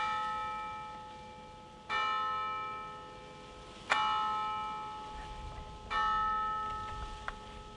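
A church bell in a convent strikes the hour with three loud, evenly spaced strokes about two seconds apart. Each stroke has a long ringing decay, and a fainter metallic tap follows near the end.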